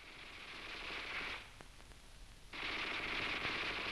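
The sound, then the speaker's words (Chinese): Rapid machine-gun fire from a Japanese Type 11 light machine gun, in a wartime battle setting: two sustained stretches of dense, crackling automatic bursts, separated by a quieter gap that carries a few sharp isolated cracks. “哎，老葛，你听啊，那小歪把子声音多脆啊。”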